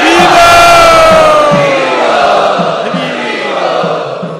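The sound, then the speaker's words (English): An audience at a spiritual gathering chants loudly in welcome. Many voices swell together with a steady rhythmic pulse, loud at first and easing a little toward the end. “Let us welcome them by loudly chanting.”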